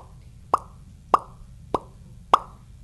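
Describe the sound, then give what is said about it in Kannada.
A voice imitates oil dripping from a leaking vehicle with four evenly spaced, short, hollow plopping sounds made by the mouth, each sharp and mid-pitched against near silence. “ಮತ್ತು ಅಲ್ಲಿ ಒಂದು ಗಾಡಿಯ oil leak ಆಗುತ್ತಿತ್ತು. ಅದರ ಶಬ್ದವು”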